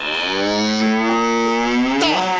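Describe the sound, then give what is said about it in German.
A cow moos loudly in a single long, rich, droning call from grazing cattle, with the pitch bending upward near the end. “Stiere! Ach was, das sind doch bloß Kühe, die friedlich weiden.”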